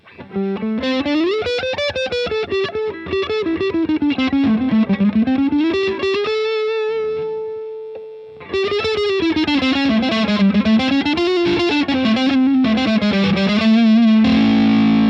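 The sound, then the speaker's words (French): Electric guitar with a crunch overdrive engaged that adds a midrange peak plays a loud, continuous run of notes, holds one sustained note midway, then resumes its busy melodic phrasing, alone without voices. “quand vous enclenchez, un petit crunch, qui vient doser le degré d'épaississement du micro. Ça rajoute un petit peu de médium, une petite crête dans les médiums.”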